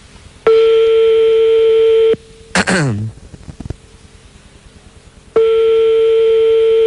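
A telephone rings down the line during a call: two long, steady ring tones separated by a pause, with a short noise in the gap between them.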